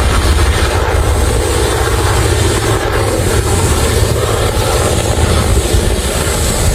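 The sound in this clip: Loud helicopter engine and rotor roar from helicopters dropping water on a wildfire, a steady dense drone that continues without a break.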